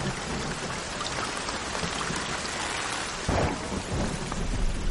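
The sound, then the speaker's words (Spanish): Torrential rain falls at night on a village of huts, a dense and constant wash of downpour, with a deep rumble of thunder swelling after the midpoint and rolling on beneath the rain. “Por la noche los hombres están tumbados en hamacas mientras cae una torrencial lluvia.”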